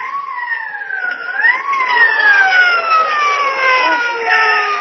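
A loud police car siren wails continuously, its tone sweeping up once and then gliding down in long, slow falls.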